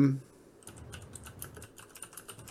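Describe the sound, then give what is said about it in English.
Faint, rapid keystrokes tap on a computer keyboard in a quick, uneven patter after a brief voice at the very start. “I needed to type something”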